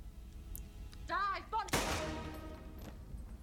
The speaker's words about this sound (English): It's quite a shock when he shot her, wasn't it?